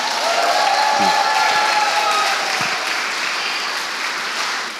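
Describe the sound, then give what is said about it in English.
A church audience applauds and cheers, a loud, dense wash of clapping that holds for about five seconds, with a faint whistle-like tone early on. “Hey, come on, why don't we give Jesus a bigger hand than that? He's worthy of all glory, He's worthy of all honor. Come on, keep it going.”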